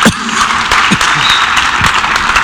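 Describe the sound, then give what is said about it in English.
A church audience applauds during a sermon with steady, dense clapping at an even loudness, with faint voices mixed in. “But I think all of us, yeah, that's worth applauding for.”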